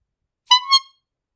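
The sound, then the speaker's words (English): A clown's rubber-bulb nose horn honks at a circus, with a bright, buzzy, reedy tone. It gives a quick pair of loud squeaks that run together, with no talk around them. “a jolly group of clowns wobbled into the ring, shoes squeaking and noses honking”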